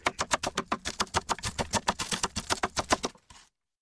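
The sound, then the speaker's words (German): A knife chops onions in rapid, steady strokes: many sharp, evenly spaced strikes with dull low thuds underneath, stopping abruptly after about three and a half seconds. “Jetzt noch Zwiebeln schneiden und dann geht's los.”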